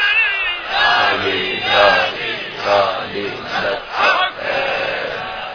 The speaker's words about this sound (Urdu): جو کچھ تم نے بغض کا اظہار کیا اس کے مقابلے میں ان چاہنے والوں کی نعرہ حیدری کی آواز کو سن لیتے۔